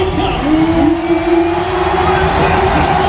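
Basketball crowd at Bercy in Paris cheering French captain Wembanyama after a home win, a loud, steady roar of cheers and shouts sustained throughout.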